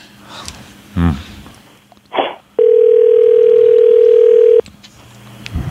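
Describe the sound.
A telephone call being placed: a loud, steady dial tone holds for about two seconds, preceded by a couple of brief clunks and rustles of handling.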